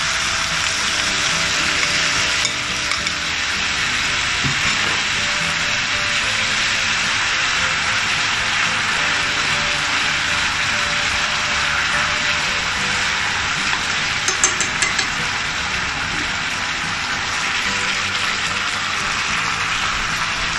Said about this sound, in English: add the stir-fry sauce to the vegetables.